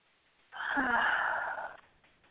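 One long, deep breath, part of a slow breathing exercise, is drawn out for over a second. It is an airy, rushing sound that swells and then fades back into near silence, soft and heard alone.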